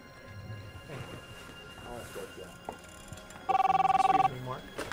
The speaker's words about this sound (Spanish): Poco después de que Denise se marchara, Lichty recibe una desconcertante llamada.